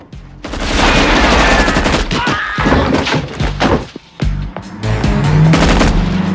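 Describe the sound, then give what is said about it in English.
Gunshots from a gun fired at a truck driver near a hut, as a loud, dense barrage of rapid shots that runs almost continuously, breaks off briefly, then resumes. “a gun in a bloodied hand, shoots the driver.”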